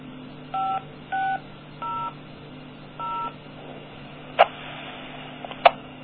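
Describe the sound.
DTMF dialing tones set up a radio link: four separate beeps of different pitch sound one after another, followed by a few sharp clicks, over a faint steady hum.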